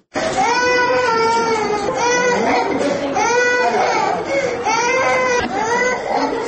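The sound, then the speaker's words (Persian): Children crying while being brought to a hospital in Maimana for vaccination. Loud, continuous wailing and sobbing starts right away and rises and falls in pitch throughout, with no pause. “این صدای کودکانی است که توسط والدین و بزرگان فامیل جهت واکسین در شفاخانه ملکی شهر میمنه آورده شدند.”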